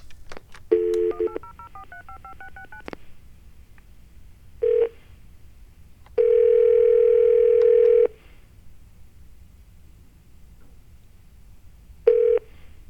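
Touch-tone keypad beeps dial a toll-free 1-800 hotline number: a quick run of pitched tones at first, then a few isolated beeps and one longer steady tone, all clean and alone.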